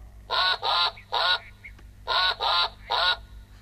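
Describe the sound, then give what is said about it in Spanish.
A duck quacks six times in two groups of three. Each call is a nasal, buzzy honk about a third of a second long, moderately loud over a faint low hum, with no talk. “¡Pato!”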